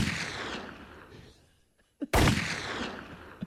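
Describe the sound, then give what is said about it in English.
Shotgun blasts in a video game: heavy, noisy gunfire fades out at the start, then after a short quiet gap one sharp, loud blast rings out and decays slowly. “Shoot him again! We can't kill it! It's not working!”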